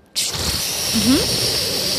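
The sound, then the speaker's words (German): A voice imitates a toilet flushing from a cistern operated by a push button: a sudden onset into a steady, breathy hissing rush that holds on, with a brief rising voiced tone partway through. “Es gibt ja eine Toilettenspülung mit so einem Spülkasten. Ja. Da drückt man auf den Taster und dann macht es so.”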